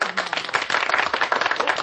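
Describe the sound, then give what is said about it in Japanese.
A radio studio audience claps for arriving guests in a brief, loud burst of dense, overlapping clapping. “これだけの拍手あるのにさ”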